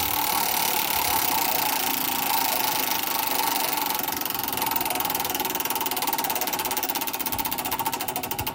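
Large prize wheel pulled and left spinning, giving a dense, rapid, steady clatter of ticks that continues at a fairly even loudness throughout, with no voices.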